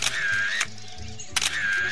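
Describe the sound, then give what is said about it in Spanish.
Shutter clicks from a camera taking photos by a river: a few short, sharp mechanical clicks spaced under a second apart over a steady background tone. “¡Mira el río! ¡Qué fino! Tomaré unas fotos y me daré un chapuzón.”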